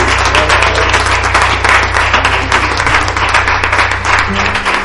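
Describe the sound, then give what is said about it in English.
A church audience applauding during a morning worship service, loud, steady clapping from many hands that runs without pause over a low, sustained tone. “Put your hands together for the Lord this morning.”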